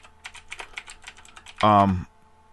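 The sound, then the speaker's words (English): Typing on a computer keyboard: a run of light, quick key clicks at an uneven rhythm, then a brief loud voice cuts in near the end. “But I'll just type in Prophet Yahweh.”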